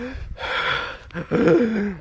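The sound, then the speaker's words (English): A person gasps for breath, a short breathy rasping intake followed by a strained, voiced catch of breath, all within about two seconds. “if you're really short of breath, then you can say, I'm gasping for breath, right?”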